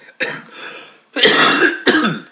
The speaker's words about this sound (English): this cough is horrible, sorry.